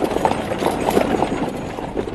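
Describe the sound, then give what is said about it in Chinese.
Hooves of a horse pulling a carriage clatter at a quick, galloping pace, a rapid run of uneven clip-clop beats at moderate loudness with no voices. “马车已经飞驰而去”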